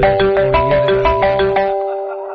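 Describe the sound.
Electronic telephone ringing: a rapid, trilling burst of many quick bright pulses, then a sustained tone that fades out, with no talk.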